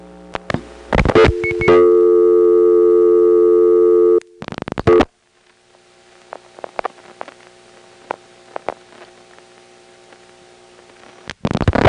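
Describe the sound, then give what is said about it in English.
Telephone double ring on a step-by-step exchange, with a Crossbar 5 ringing machine audible around the ring bursts: a loud, buzzy sustained tone, then a short burst, followed by scattered clicks over faint line hum and a final click burst. “Double ring in the Marietta step sounds kind of cool because you can hear the Crossbar 5 ringing machine in the background right at the beginning and end of each ring burst.”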